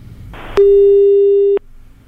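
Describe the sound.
A telephone ringing tone while a call is being placed: one steady, mid-pitched tone lasting about a second, after faint background noise.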